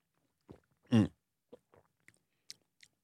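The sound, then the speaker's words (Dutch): Sips from a plain drinking bottle with a spout: a short wet slurp followed by a few faint mouth clicks and swallows, quiet and without talk. “Ik draai hem even open. Dan lijkt het nog steeds op een hele gewone drinkfles met een tuutje. Ik ga je gewoon drinken nu.”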